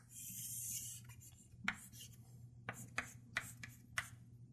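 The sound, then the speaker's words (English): Chalk writing on a blackboard as a lecturer draws a transistor current-voltage curve, with several short, faint scraping strokes in quick succession over a low steady hum. “In fact, let me just draw it on top of this, that way it will be clear. Yeah, rather than drawing it separately, let me just draw it on top of this. I don't see chalk with a different color,”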